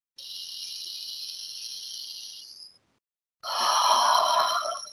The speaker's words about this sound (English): In nose, out nose. In nose, out mouth.